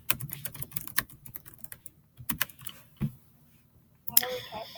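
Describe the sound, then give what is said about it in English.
Typing on a computer keyboard: many irregular, crisp clicks of varying loudness, with quieter stretches between flurries and a louder burst of keystrokes at the end. “Typing is fun.”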